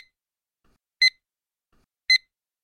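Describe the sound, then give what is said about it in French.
An exam signal tone marking the end of the exam: two short, bright electronic beeps about a second apart, heard alone against silence. “Le début et la fin de chaque texte audio seront indiqués par le signal sonore suivant. La fin de l'examen sera indiquée par le signal sonore suivant.”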